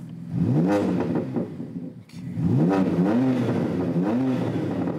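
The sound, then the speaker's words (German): A BMW car engine with aftermarket software tuning revs loudly twice, each rev climbing in pitch before settling into a wavering, throaty drone. “Beliebt ist auch nachträgliches Software-Tuning, wie an diesem BMW. 5 Modi hat der jetzt drauf.”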